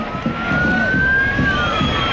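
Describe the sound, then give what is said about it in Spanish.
A street protest at the Arco de Moncloa, where protesters try to pass a police cordon, with a siren wailing in a long rising and falling tone above a constant dense roar of crowd noise. “ese es el sonido de la manifestación que acababa en el Arco de Moncloa”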